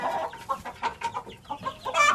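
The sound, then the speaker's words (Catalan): A black hen clucks in many short, quick bursts with an uneven rhythm. The clucks are moderately loud, and a louder, harsher cluster comes at the end. “Tot d'un cop, la porta va guinyolar un poc i una gallina negra va entrar.”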